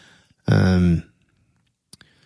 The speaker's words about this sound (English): It was crying from the 2-inch. Yeah. To be reborn. What was that sound? That was the 2-inch tape crying.